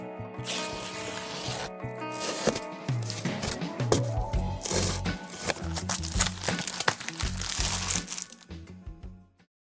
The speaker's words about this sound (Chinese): 拆开那一层又一层的牛皮纸